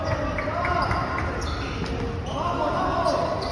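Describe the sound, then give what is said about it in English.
A basketball bounces on a covered court with a painted floor, its repeated thuds set against steady background noise and faint voices. “And I literally walked towards the light and the sound. Basketball.”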